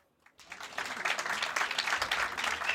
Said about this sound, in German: Einen großen Applaus für Felix Betzin